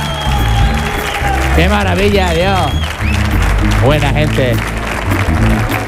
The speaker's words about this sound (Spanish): Hoy ha venido una gente maravillosa de Cañada Rosal y suena así de potente.